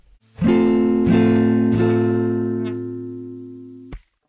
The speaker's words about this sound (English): Then there's one barring the 5th fret with the C shape, which sounds like this.